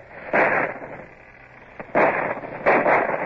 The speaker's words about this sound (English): Starboard guns! Fire as your guns bear! Steady aim! Now!